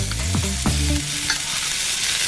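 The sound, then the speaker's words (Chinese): Cured pork slices and sliced arrowhead with a little water simmer in a wok over low heat, giving a steady hiss and sizzle with a few clacking stirs near the start. “接下来锅中直接放入第二份腊肉片，再倒入炒过的茨菇片，加少许清水，小火焖煮约两分钟收汁”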